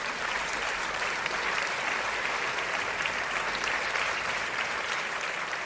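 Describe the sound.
Applause from a show audience welcoming a guest, a professional cosplayer and model: dense, sustained clapping that holds at an even loudness throughout, with no voices rising above it.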